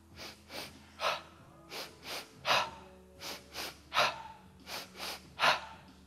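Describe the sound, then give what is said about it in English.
Energizing breath work, two breaths in and one out: many rhythmic cycles of two quick sniffing inhales followed by a stronger, louder exhale, repeated steadily with no talk. “we'll just start with an energizing breath. And go in twice through the mouth or through the nose, out once.”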